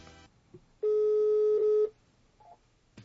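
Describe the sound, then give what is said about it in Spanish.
A telephone ring tone sounds as a call is placed: a single steady, even-pitched tone about a second long, faint overall, with a few small clicks before and after. “Entonces no nos cuelgues, ya le estamos marcando.”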